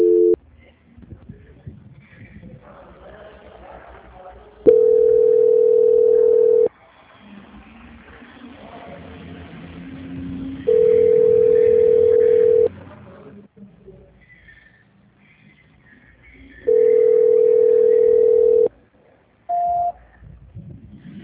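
Telephone tones during a call transfer: three long, steady mid-pitched tones of about two seconds each, evenly spaced with quieter line noise between them, then one brief higher beep.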